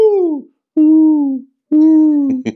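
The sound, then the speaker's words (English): A person's voice imitates a mourning dove's call with three low, hooting coos, each sliding downward in pitch and separated by short pauses. “I can only speak to mourning doves because one time one got on my balcony. I mean, they're beautiful, but it was like on my balcony and it was doing the whole,”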